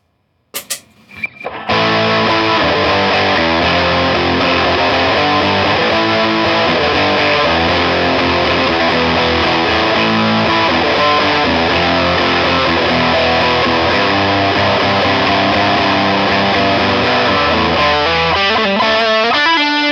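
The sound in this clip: A distorted electric guitar on the lead channel of a Boss Nextone amp: a few brief plucked notes, then a dense, loud, continuous passage of driven chords and notes that plays on without any talk.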